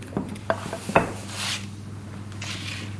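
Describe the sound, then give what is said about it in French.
A rolling pin is pushed back and forth over a sheet of pasta dough laid on a guitar-string cutter to press out strands. A few sharp taps and clacks come first, then soft rubbing strokes, with no talk. “Il a déposé cette feuille sur les cordes. Donc elle fait des allers-retours avec le rouleau à pâtisserie pour que ces fils de pâte tombent en dessous des cordes.”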